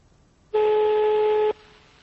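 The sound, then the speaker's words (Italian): A single steady telephone tone sounds for about one second as a number is dialed, starting and stopping abruptly with near-quiet before and after. “Oh, io ho fatto il numero qui.”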